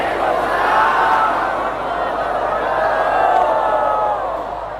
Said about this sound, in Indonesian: Dari bunyi sambutan salam, nampaknya masih banyak yang puasa sunat.